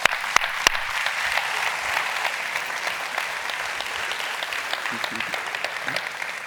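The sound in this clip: Audience applause welcoming a guest onto the stage at Westwood: steady, dense clapping that lasts about six seconds, with a few sharp individual claps at the very start and no speech over it.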